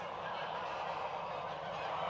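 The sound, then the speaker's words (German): Geese honk on a goose farm during a vaccination of the flock, their overlapping calls merging into a faint, dense and steady din. “Zweimal im Jahr wird auf dem Gänsehof Taphorn im niedersächsischen Lohne geimpft. Heute 1500 Tiere.”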